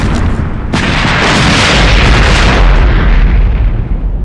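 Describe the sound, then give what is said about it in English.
Artillery shells explode on troop transports in battle. A sharp blast cracks out early, then a sustained, loud rumbling roar follows and eases slightly near the end, with no voices. “At that moment, their own artillery started falling on the transports.”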